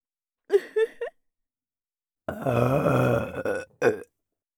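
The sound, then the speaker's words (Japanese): Burping from a person belching on purpose: a few short croaky burps come first, then after a pause a long, drawn-out rumbling belch with a wavering pitch, and finally one more short burp. The burps are loud and clear, with no talk. “そしてここからは脇を見せつけながら目の前でゲップしちゃいます。”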